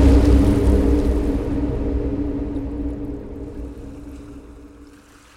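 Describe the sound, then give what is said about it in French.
The sea as a continuous rumbling wash with a low, steady droning hum beneath it, loud at first and slowly fading away. “La mer. Ça fait longtemps que Nakata n'a pas vu la mer.”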